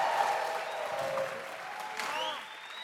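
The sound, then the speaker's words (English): An audience applauding at a gathering, a dense, steady clatter of many hands clapping that eases a little toward the end. “please will you put your hands together and welcome Laura from our Audacious Foundation”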